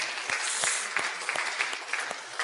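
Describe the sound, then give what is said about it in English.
An audience gives a polite round of applause during a church fundraising update: dense, even clapping with a few sharper individual claps standing out, and no voices. “now you feel like you have to clap polite. You guys were going, you know, it was a little polite clap”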